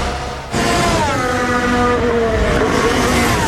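A Formula 1 race car engine accelerates with its power mode switched on. A loud, sustained high-pitched engine whine with layered harmonic tones begins abruptly after half a second and holds strongly to the end.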